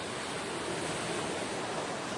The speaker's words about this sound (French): Bah rien. Je regarde la mer.